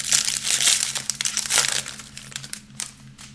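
Crinkling foil wrapper of a 2023 UFC Prizm trading card pack being torn open, many sharp crackles and crumples that start dense and thin out toward the end.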